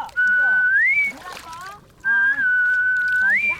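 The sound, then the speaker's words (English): Breath whistles of a haenyeo diver resurfacing from the ocean: two sustained, clear whistles, each holding a steady tone and then sliding upward at the end, with a brief softer break between them. “When they resurface, they whistle. It sounds like this, like”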